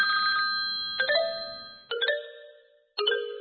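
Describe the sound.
Electronic phone ringtone signalling an incoming call, a bright chiming tone that repeats in a few separate bursts, each one fading before the next starts, with no voices.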